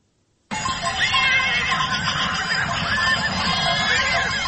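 Wild horses neigh and whinny in Spain, in a dense overlapping chorus. The loud calls begin abruptly after a moment of silence and continue without a break to the end.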